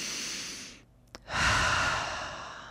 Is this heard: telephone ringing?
no